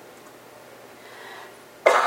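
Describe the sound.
A single loud, harsh cough from allergies, blamed on dust from scraping walls for painters. It bursts out abruptly at the very end after near silence.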